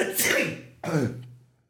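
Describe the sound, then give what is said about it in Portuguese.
A person's sneeze: a breathy build-up, then one sharp, loud burst with a short voiced tail that fades out. No speech accompanies it. “Eu vou espirrar. Eu vou muito espirrar. Ai, meu Deus do céu, espirro.”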